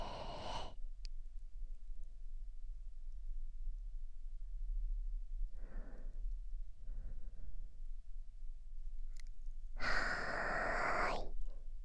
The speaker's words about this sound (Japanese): 肺いっぱいに息を吸い込みます。ゆっくり吐いて、